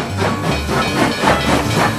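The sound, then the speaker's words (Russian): Steam locomotive sounds: a broad, loud hiss of steam with a low rumble beneath, pulsing in a loose, rhythmic chuff. “Паровоз, паровоз.”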